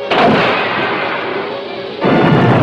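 A submarine fires its weapons: two heavy explosive blasts, one at the start and one near the end, with a loud sustained roar filling the gap between them.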